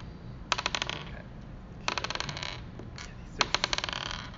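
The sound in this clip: Dice rolled for damage in a tabletop role-playing game: three separate rolls, each a quick, faint rattle of clicks that tapers off as the dice settle.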